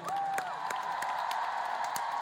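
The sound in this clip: Concert audience applause greeting a newly arranged set of songs: a dense, steady wash of many hands clapping with faint crowd noise, a sustained tone running beneath it throughout.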